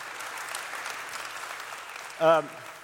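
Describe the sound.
A church audience applauds to welcome middle and high school students, a steady wash of clapping that holds level throughout, with a short voice rising above it near the end.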